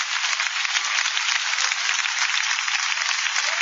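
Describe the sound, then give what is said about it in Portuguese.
Applause at a church service: steady, continuous clapping from an audience that stays at an even level for the full length, with no voices rising above it. “Palmas para Jesus, palmas para Jesus.”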